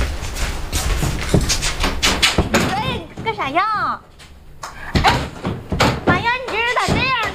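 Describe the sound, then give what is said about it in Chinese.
A door is shut and locked, heard as a few sharp thuds and knocks amid loud, lively talk from several people that runs through the whole stretch. “你锁门干啥呀？ 就锁了，咋的了？”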